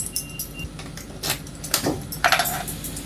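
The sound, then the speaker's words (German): Keys jangling as a newly obtained key is handled: a few short, bright metallic jingles and clinks in quick bursts, fairly faint and scattered across the moment. “Jetzt haben wir auch einen Schlüssel. Klimper, klimper, klimper.”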